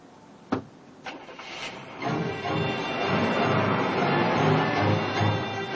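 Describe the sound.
Someone gets into a car and starts it. Two sharp knocks, like a door and the seat settling, come first, then an engine turns over and runs at a steady, broad rumble.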